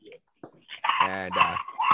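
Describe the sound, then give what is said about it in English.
A dog barking: a few short yips, then a longer, tonal, almost howling bark and one last sharp yelp. “And there's this dog.”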